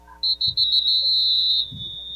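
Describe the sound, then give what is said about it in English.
A referee's whistle at a football game gives one long, steady, high-pitched blast that dips slightly as it ends, over a low hum and a few dull thumps. “And now whistle's blown.”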